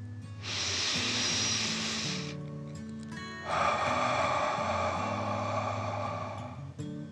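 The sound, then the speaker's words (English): A deep breath drawn in and let out during a children's guided relaxation: two long, airy hissing breaths, the second longer, separated by a short pause, over soft steady background music. “Last one, fill your chest and belly, deep breath in and out.”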